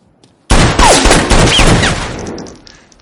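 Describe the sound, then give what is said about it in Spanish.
Sudden, loud gunfire erupts in a thriller action film shootout as a bullet strikes a man. Rapid overlapping shots come with whizzing, whining streaks, then the burst trails off and fades by the end. “Una bala alcanza a Luis.”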